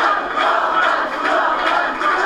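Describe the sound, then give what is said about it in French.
Party activists cheer loudly as their president climbs to the podium on an election night of defeat. The crowd's roar surges in waves and stays strong throughout. “Alors, dans la défaite, les militants réservent un accueil de vainqueur à leur président lorsqu'il grimpe à la tribune.”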